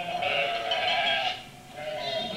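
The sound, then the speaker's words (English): Sheep bleat during a Christmas nativity pageant rehearsal: several overlapping, wavering bleats run almost continuously, dipping briefly before picking up again. “How about some sheep? Good.”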